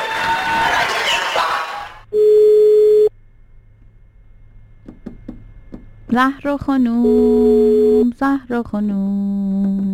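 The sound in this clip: A telephone call tone sounds as a radio host dials a listener live. A noisy opening gives way to one long, steady, mid-pitched tone, and voices and further tonal sounds follow later.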